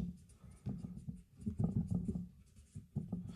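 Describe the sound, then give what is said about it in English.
Faint pen-on-paper scratching from writing by hand, a steady run of short uneven strokes with small pauses between them, no voices. “And so I'm just going to write like the hottest day.”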